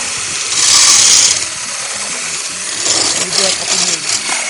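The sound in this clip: Loud whirring blender run by a chef preparing dessert in the restaurant La Coulée Douce in Montauban; an early burst of high motor roar eases into a steadier, fluctuating whir.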